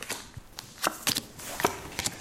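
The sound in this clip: Shuffling a deck of 90 playing cards for a dinosaur card game: many quick, crisp flicks and riffling taps in an uneven rhythm, with no talk.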